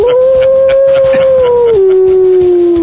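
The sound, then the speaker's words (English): A wolf howl, played as the mascot sound for a college football team called the Lobos: one loud, sustained tonal howl heard alone, which steps down to a lower pitch partway through and holds there to the end. “Especially the Lobo howl there, because the Lobo's a wolf and that whole thing.”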